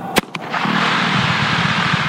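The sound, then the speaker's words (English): A dynamite blast breaks up rock in the path of a 6.5-mile water pipeline: one sharp loud bang, then a smaller crack, then a steady, noisy roar that lasts to the end. “To install one 6.5-mile pipeline, workmen set off a dynamite blast last week, breaking up rock that was in the way.”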